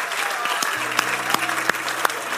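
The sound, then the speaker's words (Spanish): A church audience applauds during a Spanish-language service. Dense clapping is punctuated by sharper single claps, with a voice faintly underneath. “Dale un aplauso al Señor, esa es su promesa para ti.”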